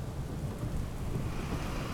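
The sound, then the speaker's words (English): Steady, dense rain with wind in a storm under a greenish-yellow sky, a continuous rushing roar with a deep low rumble that stays at an even, loud level throughout, with no voices. “The wind and rain were picking up”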